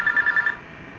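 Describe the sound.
A telephone rings with a call from an unknown number: five short, high electronic pulses in quick, even succession, then the ringing stops and only a faint hum remains.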